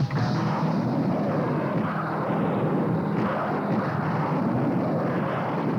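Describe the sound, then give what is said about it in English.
Rockets being fired at night, heard as one continuous loud rushing roar that stays steady throughout, with no separate blasts standing out. “Stand by. Arm rockets. Fire.”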